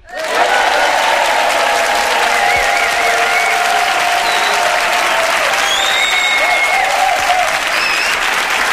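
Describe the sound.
A large live crowd at a comedy talk show cheers and applauds in a loud, continuous roar of clapping and shouting, with a few high whistles rising above it.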